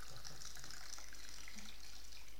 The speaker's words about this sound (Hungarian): Ha elkezdem ezt a poharat megtölteni, mi történik vele?